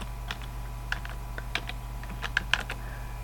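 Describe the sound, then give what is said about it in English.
Keystrokes on a computer keyboard as a username and password are typed in: scattered, light clicks at an uneven pace, a few sharper than others, over a steady low hum. “Okay, here enter both your username and password as sample user. That is one word, all lowercase. So we'll type that in.”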